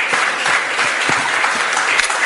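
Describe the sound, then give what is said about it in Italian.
An audience applauds a guest at a panel discussion, with dense, even clapping that holds steady and loud throughout. “facciamo un applauso al dottor Labbiola.”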